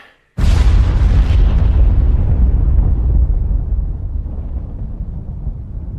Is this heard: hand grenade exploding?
yes